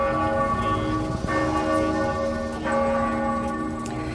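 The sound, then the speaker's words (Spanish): Church bells of the Basilica of Santa Maria Maggiore ring to open a rosary prayer, a loud, continuous peal of overlapping, sustained tones with a couple of fresh strikes, and no voices. “Así sonaban hace poco más de una hora esas campanas de Santa María la Mayor para inaugurar el rezo del Rosario en recuerdo del Papa Francisco”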